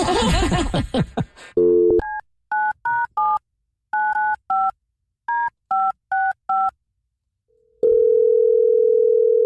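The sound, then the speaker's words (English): Telephone keypad tones beep in a quick run of short, pitched presses as a number is dialed to a voicemail line, followed by a loud, steady ring tone that holds to the end. No one speaks. “let's give her voicemail a call”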